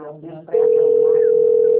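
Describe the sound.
Telephone ringback tone heard on a call, a steady, unbroken electronic tone that starts abruptly after a moment of speech and holds at a constant pitch until the end.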